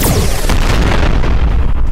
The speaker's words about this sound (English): just as an energy blast erupts from the shiny silver ship